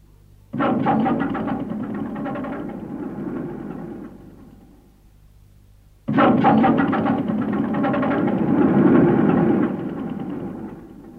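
The engine of a large Belarus tractor cranks but fails to start, in two long bursts of rapid rattling, chugging turnover separated by a short pause.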